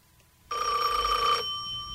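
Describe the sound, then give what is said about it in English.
A telephone bell rings in one sustained, bright, buzzing burst lasting about a second, then cuts off, leaving only a faint low hum. No voices are heard. “If you are alone, don't answer the phone.”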